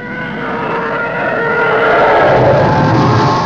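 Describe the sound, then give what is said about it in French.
A TIE fighter scream built from a young elephant's trumpet and a car tyre on a wet road: a harsh, sustained tonal roar with a gritty hiss, swelling gently in loudness throughout. “les petits appareils de combat de l'Empire est fait avec le barrissement d'un jeune éléphant et le bruit d'un pneu de voiture sur une route mouillée.”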